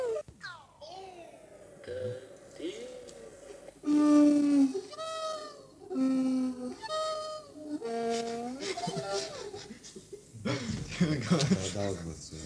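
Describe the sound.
A person imitates a donkey braying, producing several loud, see-sawing hee-haw cries in a row. Brief talk comes before the cries and resumes after them.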